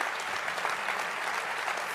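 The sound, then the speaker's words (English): Audience applause, a dense even patter of many hands clapping at moderate loudness, steady throughout the two seconds with no voices over it. “That's a clap.”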